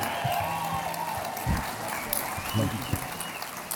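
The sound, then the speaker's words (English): A church audience at Generation Church applauds a visiting pastor: steady, dense clapping runs throughout while a voice talks over the crowd. “Come on, put your hands together. Make some noise. Come on.”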